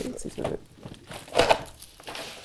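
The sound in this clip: Gift wrapping paper crinkling and tearing as a present is opened, in a few uneven rustling bursts with one sharper burst midway, while people talk.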